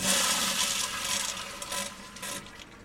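A toilet flushing in a newly built bathroom of a small home, a steady rushing wash of water that stays loud throughout and eases only slightly toward the end.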